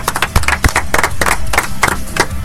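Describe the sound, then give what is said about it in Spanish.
Applause for someone who has just presented the second stage of a thesis: many quick, irregular, sharp claps blend into a steady, fairly loud patter with a few heavier low thumps, and no voice above it. “Un aplauso, por favor.”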